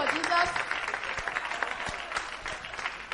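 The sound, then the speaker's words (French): An audience at a worship service cheers and applauds, producing a fairly faint, dense wash of clapping with scattered sharper claps, while a voice carries over the noise. “Qui est passionné de Dieu ici? Ça doit se ressentir par vos acclamations.”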